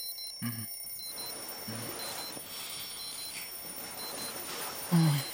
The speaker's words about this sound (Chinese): 捡了个闹得最响的闹钟